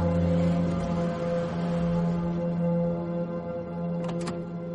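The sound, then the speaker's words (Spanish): A police patrol car pulls up and parks, its engine giving a steady low hum with layered tonal harmonics throughout and a couple of brief high-pitched sounds near the end. “Un coche aparca ante él.”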